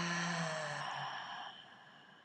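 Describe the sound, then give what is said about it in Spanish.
A deep, slow exhale through the mouth in a guided breathing exercise, a soft airy breath that gradually fades over about two seconds above a sustained tonal backdrop. “Y ahora vas a exhalar todo por boca.”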